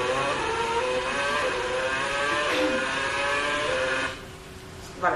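Onboard engine of a racing car, a steady, bright, high-pitched harmonic drone that drops abruptly near the end as the driver changes gear, then surges back up.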